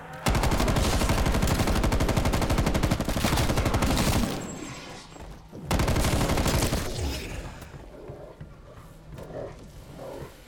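Rapid, dense video game gunfire in a zombie shooter: a long loud unbroken burst, a brief pause, then a second burst that thins out into quieter, scattered shots and background game noise.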